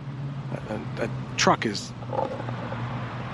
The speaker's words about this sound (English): a truck is distracting me